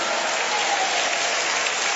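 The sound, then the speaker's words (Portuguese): Church audience applauding during a worship service, a dense, even wash of clapping with no distinct individual claps, sustained at a steady level throughout. “Aplaude a Jesus e dê glória a Deus.”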